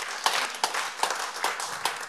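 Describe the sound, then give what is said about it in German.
An audience at a literary reading applauds to welcome an author. The clapping is steady and dense, with regular stronger accents recurring throughout, and no talk over it. “Ein Applaus für Paula Fürstenberg.”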